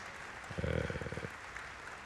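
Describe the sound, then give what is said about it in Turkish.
A short burst of rhythmic clapping from an audience saluting soloists after a stage performance. It is faint and lasts under a second, with quick even beats over quiet background noise. “bize sunan değerli sanatçılarımızı biz de yürekten alkışlıyoruz.”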